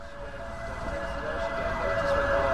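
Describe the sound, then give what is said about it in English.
Sirens wail from police vans racing along the road outside a magistrates' court in Islington, North London, over a steady traffic rumble, growing slightly louder toward the end. “Police vans race up and down the road in front of the magistrates' court in the neighborhood of Islington as officers continue to arrest hundreds of suspects.”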